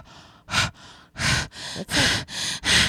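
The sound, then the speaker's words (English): Breathing onto a sensor comes as a rapid run of breaths, loud airy exhales alternating with softer intakes, close and unaccompanied by talk. “Okay. I'm going to breathe.”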